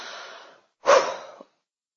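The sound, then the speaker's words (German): Forceful exhaling in a guided breathing exercise: a softer breath out that fades away, then after a short pause a stronger, louder blown-out breath that tapers off into silence. “Atme, puste ich jetzt aus.”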